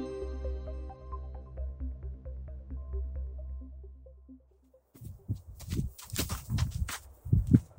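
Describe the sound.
Footsteps climbing a hill beside banana farms in the Jordan Valley: a series of soft crunching steps in an uneven rhythm, following a steady droning tone that fades into near silence.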